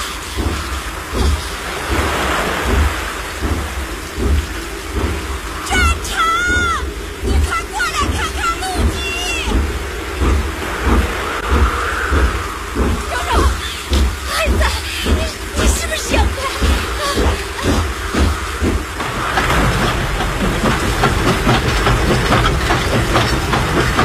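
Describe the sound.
A train rolls slowly onto a flooded railway embankment, its wheels making a loud, steady, rhythmic clatter over a continuous low rumble that grows slightly denser near the end.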